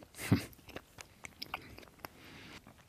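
A bite into Easter bread topped with mandarin egg liqueur: one crisp, crunchy bite followed by a few faint chewing clicks.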